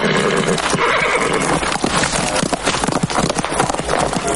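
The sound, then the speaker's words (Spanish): A horse gallops through streets in a western film, with loud, rapid clip-clopping hoofbeats and a whinny over the running. “Se sube al caballo y arrea en el lomo para que corra por unos calle”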